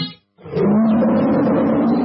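A tiger roars in Bardiya: one loud, sustained, rumbling growl that starts after a short silence and holds steadily to the end.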